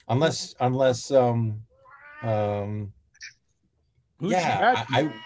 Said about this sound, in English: your kitty's hungry. Come here. Who's kitty's hungry? There she is. Meow.